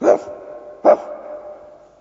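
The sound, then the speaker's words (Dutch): Two loud barks from a dog at a farmhouse door, spaced just under a second apart, each sharp onset trailing off into a fading tail, with no voices. “Met zijn voorpoten krast hij tegen de deur. En blaft er flink op los.”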